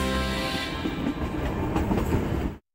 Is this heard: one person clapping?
no